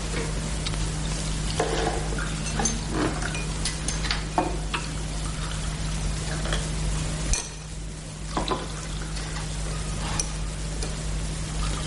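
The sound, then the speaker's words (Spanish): Coffee poured at a table, heard as a steady, noisy liquid trickle with a few light clinks of crockery over a low constant hum, no voices. “La mujer se sienta junto a ellos y sirve el café.”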